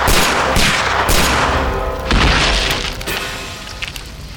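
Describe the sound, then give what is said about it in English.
A few loud shotgun blasts fired into trees and bushes beside a highway, sharp booming cracks spaced about a second apart with rumbling decay between them and no speech. “How about you come out and join us before I start blasting into those trees?”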